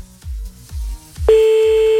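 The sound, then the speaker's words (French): A steady ringback tone sounds on an outgoing telephone call, holding one unbroken pitch through the second half after a few low thumps. “Et j'espère que ça va décrocher pour le premier appel.”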